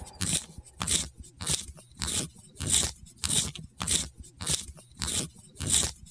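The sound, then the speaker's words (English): A pencil being sharpened makes repeated crunchy, scraping grinding strokes in a steady rhythm, with many evenly spaced bursts of gritty, crackling texture separated by brief pauses. “that is a pencil being sharpened”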